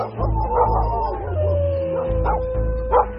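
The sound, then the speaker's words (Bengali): A dog barks, howls and yips as robbers break into a merchant's house in the evening. Several sharp, loud barks alternate with a long wavering whine that slowly falls in pitch. “প্রথম সন্দেহ হল কুকুরের ঘেউ ঘেউ শুনে”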